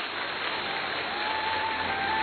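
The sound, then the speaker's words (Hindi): Audience applause for the mothers at a gathering: a steady, dense wash of many hands clapping, fairly faint and even in level throughout. “और इन माताओं के लिए सब जोरदार ताली बजाएंगे।”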